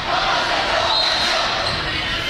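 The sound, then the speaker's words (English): A crowd cheers at a volleyball match with a dense, continuous roar that stays loud and even for the whole moment. “Got the crowds getting into it again, which is always good.”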